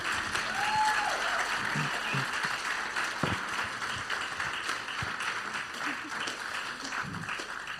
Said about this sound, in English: We're bringing the launch team up, everybody. Let's give them a hand.